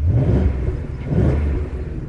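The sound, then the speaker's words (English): A 450-horsepower V8 engine revs in a deep, continuous roar that swells twice in loudness, heard alone with no talk. “Yes, on a 450 horsepower V8 that sounds like this.”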